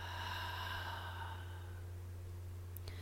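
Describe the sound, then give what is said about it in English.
A deep breath in and out during a guided relaxation session: a soft, airy exhale that fades within the first second and a half, over a steady low hum that continues alone. “Taking one more inhale and exhale.”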